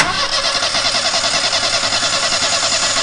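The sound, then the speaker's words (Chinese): An engine starts and then runs loud and steady, spinning a three-blade propeller whose blades sit out of plane during a test run after repairs. It gives a continuous, fast rhythmic throb. “还是螺旋桨问题，三扇叶片不在一个平面，转快了就抖动。”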